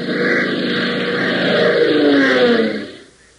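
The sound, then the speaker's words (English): A new, radically designed jet plane roars through the sky at high altitude, a loud, dense, steady engine roar that swells slightly and then fades away quickly near the end. “over Black Mesa, gleams on the shiny metallic surfaces of a new, radically designed plane, roaring through the sky at an altitude of more than 20,000 feet.”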